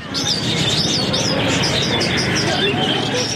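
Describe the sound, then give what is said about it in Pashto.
Many birds chirping and tweeting at a bird market in Kandahar city, with quick high chirps repeating over a dense, constant background din. “د کندهار ښار په ځل کې د مرغانو دی بازار کې سلګونه کسان د مرغانو کاروبار کوي”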